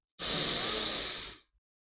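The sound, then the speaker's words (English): A single deep inhale through the nose, taken during a guided breathing exercise to center before a love-focused meditation; a steady, breathy rush of air lasting just over a second that holds level, then tapers off quickly. “sit up straight, take a comfortable position, take a nice deep inhale through your nose”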